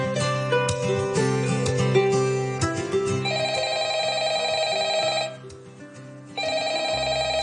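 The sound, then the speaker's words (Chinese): A telephone at a fruit wholesale stall rings insistently, a bright, trilling bell that repeats for a long stretch. It breaks off briefly, then resumes, following a short jumble of other sounds at the start. “做乜嘢电话响咁耐你唔听啊？”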